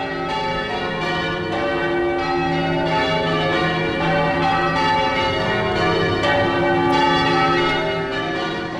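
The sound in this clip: Church bells in change ringing, with several bells struck in rapid, overlapping sequences that keep shifting in order. The peal is loud, dense and continuous, with no voices.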